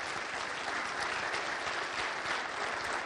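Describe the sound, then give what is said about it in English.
Warm applause from a church audience welcomes a guest who works with Bhutanese refugees in Columbus. The clapping is dense and even from start to finish, with no voices above it. “Would you stand, Utam, please? How about a warm Linworth welcome?”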